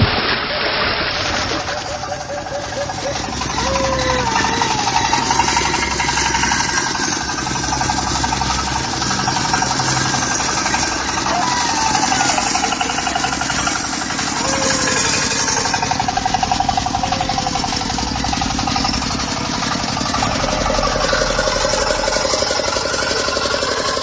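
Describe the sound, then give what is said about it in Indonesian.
A machine engine runs inside a ditch, a loud steady chugging drone with rough knocking vibration that holds constant throughout, with no pauses or changes in pace. “Aku langsung mlaku parak ngidul arep mateni mesin sing ana sak jeroning kalen.”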